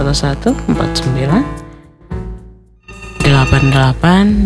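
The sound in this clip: A telephone rings with an incoming call to a radio show. Loud, tonal ringing comes in two bursts separated by a short pause.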